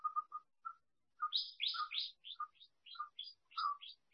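Birds singing: a few short, mid-pitched chirps, then a quick run of higher, sweeping notes mixed with lower chirps, clear and alone.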